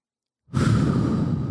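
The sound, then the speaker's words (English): A deep breath, taken slowly with eyes closed: after a moment of silence, a strong airy rush of breath begins and holds steady and full for about a second, with no talk over it. “I'm closing my eyes. I'm going to take a deep breath.”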